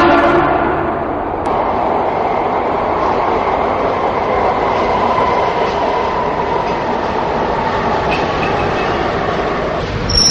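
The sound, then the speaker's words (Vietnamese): A train arrives at a station with a loud, steady rumble and rolling clatter that continue without a break throughout. “Cuối cùng tàu cũng đến ga Lục Ô.”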